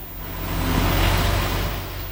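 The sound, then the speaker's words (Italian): Steady low engine rumble from a bin-washing truck used for cleaning rubbish containers, a deep droning hum that swells slightly toward the middle of the short clip and then eases, with no voices. “È un veicolo lava cassonetti.”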